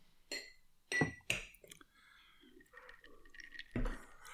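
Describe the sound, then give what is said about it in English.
Ice clinks in a glass of Disaronno on the rocks: a few bright, sharp chinks at uneven intervals, with soft, faint liquid sounds between them, all fairly quiet. “Drinking Disaronno on the rocks? What are you drinking there?”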